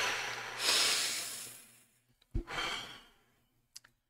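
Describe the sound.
Deliberate breathing during a pause: two long, soft breathy exhales, the second opening with a low thump, plus a few faint clicks, quiet and with no talk.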